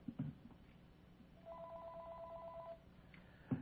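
A telephone rings once with a rapid, warbling electronic trill. The ring is quiet and sits over a low background hiss, with brief knocks before and after it.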